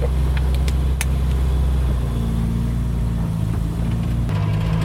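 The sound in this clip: A 1960s car, used as a daily driver, runs with a steady, loud low engine rumble that holds throughout, its tone shifting slightly about midway, with no voices over it.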